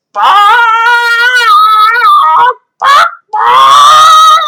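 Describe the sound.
A human voice imitating a goose honking: three loud, nasal honks, a long wavering one, a short one, then another long one, with no other sound.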